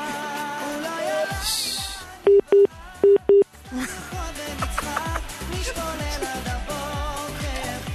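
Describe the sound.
Telephone keypad tones beep in a quick run of several short, even-pitched presses, set against a continuous busy background.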